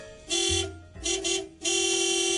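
A car horn honking in Hong Kong: a few long, steady blasts with a bright, buzzing tone, loud and alone, separated by short gaps.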